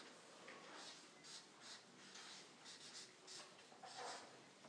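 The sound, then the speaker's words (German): Handwriting scratches faintly across paper in a series of short, soft strokes with brief pauses between them. “Ich schreibe jetzt nochmal von ganzem Herzen.”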